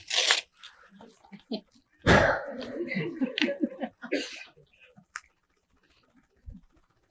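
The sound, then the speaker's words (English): Something being torn apart by hand: a short ripping burst, then a longer crackling tear with uneven rasping pulses, followed by a few brief separate rips and a faint final scrape. “Let me try to rip this straight.”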